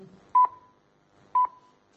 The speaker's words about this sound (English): I wanted to give something a quick go, which is to make a phone call during a service.